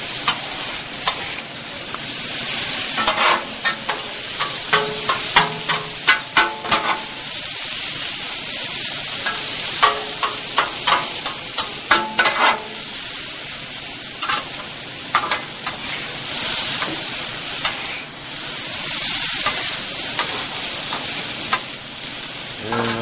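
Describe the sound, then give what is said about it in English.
Pepper and onion fry in a pan with a continuous bright sizzle, broken by many short scraping clicks from stirring throughout, with no talking. “add a little pepper. And a little onion. I'll let this thing cook for a minute.”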